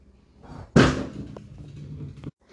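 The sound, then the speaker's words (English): A loud thump as a cat knocks a glass mason jar off, one sudden heavy impact followed by a dull, sustained clatter and rumble that cuts off abruptly. “if you heard that very loud thump, that was just my cat knocking off a mason jar”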